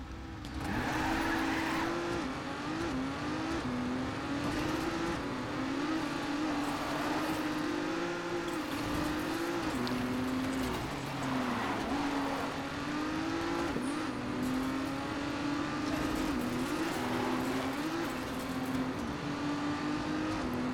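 Race car engine from the Trackmania video game, a continuous droning whine whose pitch wavers up and down as the car accelerates and brakes, playing alone at a steady level.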